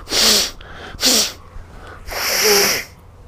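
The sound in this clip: Three loud, breathy sneezes from someone with a cold and a runny nose, each a sharp hissing burst with short pauses between, the third drawn out longest.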